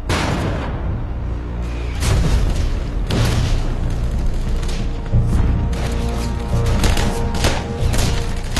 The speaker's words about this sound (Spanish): Los estadounidenses lanzan proyectiles de fósforo blanco para crear una pantalla de humo que proteja su avance.